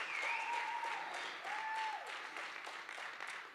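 Applause from a church audience welcoming two guests to the stage. The clapping is dense and sustained, holding steady and easing slightly toward the end.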